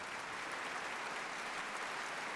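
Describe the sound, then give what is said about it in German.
Concert-hall applause fills the Berliner Philharmonie after pianist Emmanuel Ax's performance, a faint, even, continuous patter of many hands clapping with no individual voices standing out. “Der Applaus ist groß in der Berliner Philharmonie und Emmanuel Ax belohnt ihn mit einer Zugabe.”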